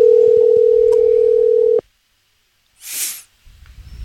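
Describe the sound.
Ringback tone while placing a voice call: one long, steady, mid-pitched tone holds for almost two seconds and then cuts off into silence, followed later by a short hissy burst and faint noise.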